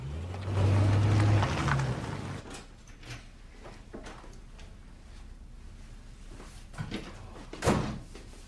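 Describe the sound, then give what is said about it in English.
A car engine rumbles loudly for about two seconds as the car drives off, then gives way to a quiet background with a few soft knocks and one sharper thump near the end. “They drive off, then return home.”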